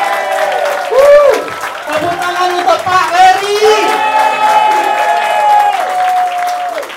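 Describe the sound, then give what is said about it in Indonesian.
Audience applause for doctors: steady clapping under loud, overlapping voices and shouts that carry on throughout. “Beri aplaus yang luar biasa untuk Dokter Sandra. Beri aplaus yang luar biasa untuk Dokter Richard.”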